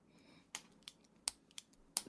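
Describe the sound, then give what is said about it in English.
Pen clicking: five sharp, very quiet clicks at uneven intervals, each crisp and brief, with no talk. “I'll click my fucking pen all the live long day. Nonstop.”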